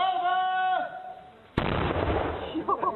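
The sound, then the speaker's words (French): A houfnice, a 15th-century Hussite-era howitzer cannon, fires at a battle reenactment in the Czech lands. After a quieter stretch comes a single sudden, loud, broad blast that rumbles on to the end. “Ceci est le bruit d'une Houfnice mise à feu pour une reconstitution de bataille durant les guerres hussites qui remontent au XVe siècle dans les pays tchèques.”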